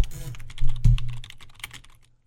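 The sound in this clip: Typing on a computer keyboard, with backspacing and corrections: a rapid, uneven stream of many sharp clicks over a low hum, thinning out toward the end.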